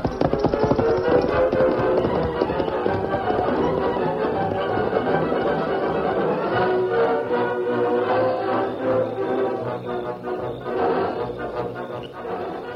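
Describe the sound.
Horse hooves clop at a gallop as the horse rears and lashes out during a fight. The sound is loud and steady from start to end, mixed into a dense, continuous layer of other sound.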